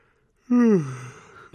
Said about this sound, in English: Great yawn